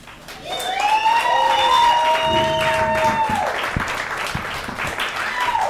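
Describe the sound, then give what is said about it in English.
Loud, sustained applause from a comedy club audience at a Friday night showcase in a tavern, welcoming a performer to the stage. The clapping builds quickly and holds steady for several seconds before easing slightly. “Welcome, ladies and gentlemen, put your damn hands together for Katya Siciliano.”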